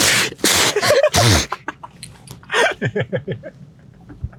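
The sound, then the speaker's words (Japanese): A loud sneeze bursts out in a few sharp, noisy blasts, followed by a run of short voiced sounds. “くしゃみ。”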